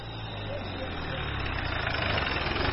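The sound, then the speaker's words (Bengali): A car engine as the car pulls up outside and stops, a steady low rumble that grows gradually louder and then settles into an idle. “ঠিক তখনই বাইরে একটি গাড়ি এসে থামার শব্দ হল।”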